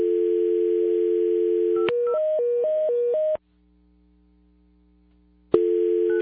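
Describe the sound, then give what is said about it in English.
A telephone dial tone hums steadily, then a quick run of dialing beeps at changing pitches. A stretch of near-silence follows before the steady tone returns abruptly. “Do you have his phone number? I do. All right. Let's call Scotty now.”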